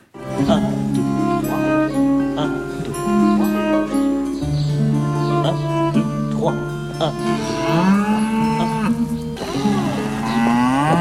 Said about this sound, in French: des animaux assez artificialisés aussi quand ils pénètrent dans la cour, telle la vache qu'on voit ici surgir dans une leçon de danse et de musique